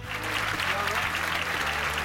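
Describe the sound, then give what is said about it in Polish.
Applause sound effect added behind a radio jingle, a steady dense wash of clapping that runs through the whole moment beneath a talking voice. “A tutaj dżingielki dorabiam w tle, żeby nie było tak łyso, to ci dorobiłem oklaski.”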